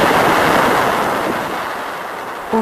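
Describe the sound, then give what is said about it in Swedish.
Plasma wave readings from a Voyager magnetic field instrument, turned into sound as the spacecraft crosses a shock wave: a loud, broad rushing hiss that eases slightly, with a short tonal blip near the end. “sen kommer du in genom chockvågen och det är det som är det här brusljudet.”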